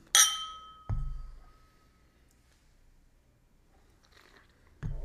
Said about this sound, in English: this is a really cool thing to get for somebody if they are a huge Glenlivet fan, but they've never had an unchill filtered Glenlivet. So here's an opportunity to have that. So with all that said, let's drink it.